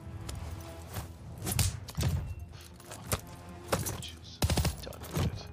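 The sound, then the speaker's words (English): Comic gunfire sound effects of someone pretend-shooting a woman: a run of sharp, punchy shots at irregular intervals, each a short broad burst over a low rumble, with some talk faintly present. “He's imagining he's shooting her. Yes, I mean, of course. The gun sound effects are really hilarious.”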